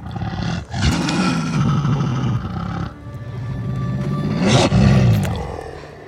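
Dog vocalizations serve as a wolf pack in a fantasy drama scene: two long, loud, growling roar-like calls with wavering pitch, the second swelling toward its end, with no talking.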